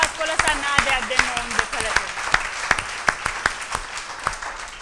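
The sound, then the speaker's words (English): Church audience applauding two pastors, a fairly even rhythm of sharp, distinct claps that carries on steadily, with a voice speaking at the start. “Shall we give Pastor Roshan and Pastor Liz a big clap?”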